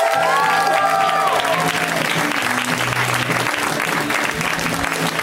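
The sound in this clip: Enthusiastic audience applause at a stand-up comedy show as a comedian is introduced. Dense, continuous clapping stays loud and fairly even from start to finish.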